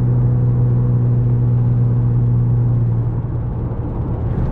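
Steady low rumble of a car being driven home, a constant drone with a strong low hum that continues unchanged throughout.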